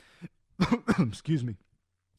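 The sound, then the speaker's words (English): A person coughs in a quick cluster of raspy bursts, two short ones and then a longer throaty one, each loud against near silence, with a faint click at the very end. “as I just cough”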